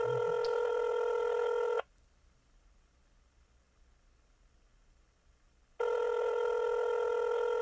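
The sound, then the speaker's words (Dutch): A telephone rings on a call that goes unanswered, giving two long, steady ringing tones separated by a pause of about four seconds, with no voices. “Ja, hij gaat over. Het is tot nu toe nog niet gelukt, uh, eh, Ties heeft nog niemand opgenomen.”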